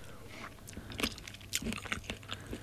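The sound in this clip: Crunching and chewing as someone eats a spoonful of crunchy nut chili condiment: several crisp, irregular bites and crunches over a steady low chewing texture, with no talking.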